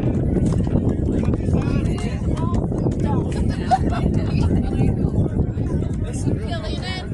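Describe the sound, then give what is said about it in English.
Gusty wind buffets the microphone at an outdoor high school baseball game between EV and Keota, a steady low rumbling roar that swells and eases, with faint voices underneath. “A lot of wind here all of a sudden. I'm eating a lot of dust here.”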